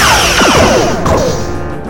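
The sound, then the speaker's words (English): Starship weapons fire in a space battle, loud overlapping zapping blasts that sweep downward in pitch, with a crashing burst partway through. “They are firing again. Shields down to 72%. Return fire, all weapons. Aye, aye, sir. Firing.”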